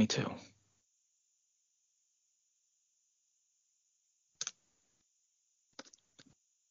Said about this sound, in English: I'm typing with one hand here.